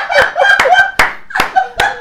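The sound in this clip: Several sharp, slow hand claps at a steady pace, mixed with voices and what may be laughter.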